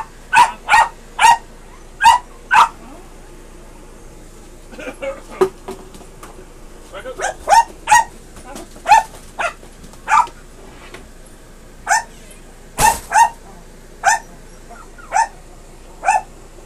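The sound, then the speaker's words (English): A dog barks in many sharp, loud bursts, sometimes in quick pairs or triplets, with short pauses between the clusters throughout. “Excuse the dog behind you guys”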